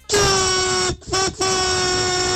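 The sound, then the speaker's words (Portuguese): Car horn sounding during a street horn-honking rally: a loud, steady, mid-pitched blast, then a brief toot, then another sustained blast that holds to the end. “Olha a galera buzinando que nem doido, cara.”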